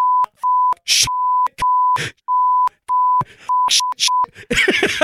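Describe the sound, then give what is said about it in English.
A song almost completely covered by censor-style beeps, with many steady high tones starting and stopping in an uneven rhythm, broken by short noisy bursts between them and ending in a rough noisy burst. “also called the beeping song”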